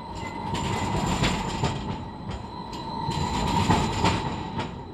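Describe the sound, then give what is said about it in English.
A modern 67-foot-long streetcar rolls down tracks embedded in the street, a steady rumbling roar with a faint sustained whine and scattered light clicks and rattles from the wheels, fairly even in loudness throughout with no voices. “Up close, the 67-foot-long vehicle sounds like this, rolling down the tracks embedded in the street.”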